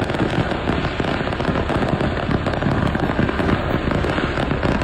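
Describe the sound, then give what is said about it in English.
A burning truck gives off dense, continuous crackling and popping explosions, rapid loud bursts like a fireworks finale that keep going without a break. “Sounds like the finale, but it turns out that this is actually video of a truck fire.”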